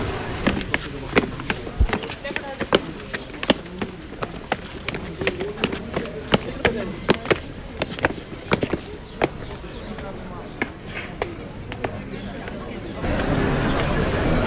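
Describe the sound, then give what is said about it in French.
Footsteps climbing the steep stairs of rue Paul Albert in Montmartre, Paris: many quick, steady footfalls tap along under people talking. “Donc là, on prend les escaliers de la rue Paul Albert. Donc là, ça monte sec.”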